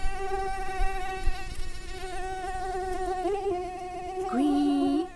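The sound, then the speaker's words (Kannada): A mosquito buzzes near the ear with a continuous thin, high whine that holds steady for several seconds and then shifts pitch near the end, with no talk over it. “ಎಂದು ಕಿವಿಯ ಬಳಿ ಕೇಳಿಸುವ ಈ ಸದ್ದು ಯಾರದ್ದು ಗೊತ್ತಾ? ಹೌದು, ಇವತ್ತಿನ ನಮ್ಮ ವಿಶೇಷ ಅತಿಥಿ ಸೊಳ್ಳೆ.”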